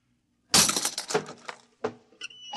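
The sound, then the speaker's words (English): A door lock being smashed: a sudden loud crash from near-silence, then several more hard, jarring blows with rattling and breaking debris, tailing off in uneven bursts. “Let me out. I'll have to smash the lock.”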